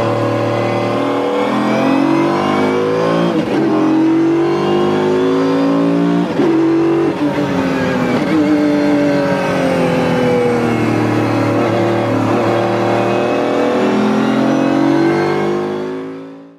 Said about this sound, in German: Und er hat den CLK GTR dann lieber behalten. Und was er so hört, wenn er ihn mal aus der Garage holt, das hören wir uns jetzt mal an.